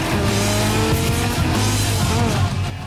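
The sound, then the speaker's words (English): Two cars, one a 1970s Chevy Monte Carlo, rev hard and race down a street, a loud continuous engine roar with a droning whine and hints of tire squeal. “Where it lands, Claire and Sean gun their engines. Their faces grim, the two young men speed past the fallen bra, sending it flying.”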